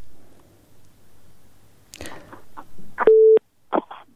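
Telephone busy signal after a caller's line drops: a single steady, mid-pitched beep cuts in sharply and stops, surrounded by faint clicks and line crackle.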